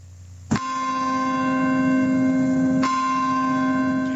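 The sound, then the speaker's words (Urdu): Bells ring in the United States for the 15th anniversary of the September 11 attacks: two loud strikes, each leaving a long, bright, sustained ringing tone that hangs on without fading much. “یہ امید کی گھنٹیاں ہیں جو امریکہ میں آج 11 ستمبر کو ہونے والے حملوں کی 15ویں برسی کے موقع پر بجائی جا رہی ہیں۔”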